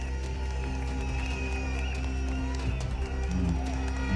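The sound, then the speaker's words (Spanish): Applause from the audience after a speech by the Central Unitaria de Trabajadores trade union, a dense, steady wash of clapping and crowd noise that stays loud throughout. “Este es el aplauso al discurso de la CUT, la Central Unitaria de Trabajadores y Trabajadoras.”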